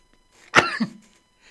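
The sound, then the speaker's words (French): A single sneeze: one sharp, breathy burst with a short, lower tail, heard alone against near silence. “Et oui, ça me fait éternuer”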